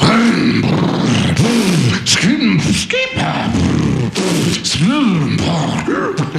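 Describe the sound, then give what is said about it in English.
A voice imitates a go-kart engine warming up, with loud sputtering, revving vocal bursts that swoop up and down in pitch almost without pause. “I'm warming up my go-kart.”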